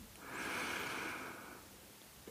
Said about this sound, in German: Atme einmal tief durch die Nase ein